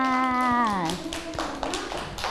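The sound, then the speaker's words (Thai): Children clapping hands for a classmate in class, a scattered run of many claps that follows a woman's voice. “เด็กๆปรบมือให้น้องมายด้วยค่ะ”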